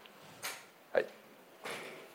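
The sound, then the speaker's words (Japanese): A window closing while its knob is pulled produces three short creaks and scrapes. The middle one is sharpest and has a squeaky tone, and all three are fairly faint against a quiet background. “じゃあ窓を閉めてください。閉める時にノブをちょっと引っ張ると閉まるんですね。これ引っ張りながら閉める、”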